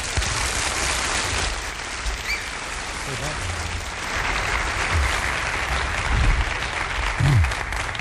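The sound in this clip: An audience applauds to welcome a speaker with sustained, dense clapping that swells a little toward the end, with some voices mixed in.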